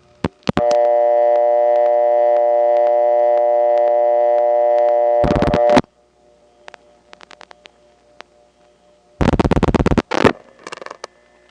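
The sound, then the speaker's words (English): Telephone busy signal on a county PBX line: a steady buzzing tone lasting about five seconds, then scattered faint clicks and short, loud bursts of dialing and crosstalk. “Let's call into the DeKalb County PBX one more time and get a busy, and you'll hear all sorts of crosstalk, including my saying hello and touch toning, and people dialing over it.”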